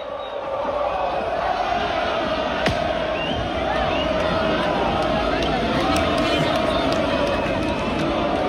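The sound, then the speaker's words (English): Some 60,000 Lens football fans roar to welcome their team home after beating Nice to win the Coupe de France, a huge, unbroken wall of cheering with sharp claps and shouts popping through. “Sound of 60,000 Lens fans welcoming their team back after they beat Nice to win the Coupe de France for the first time in their 120-year history.”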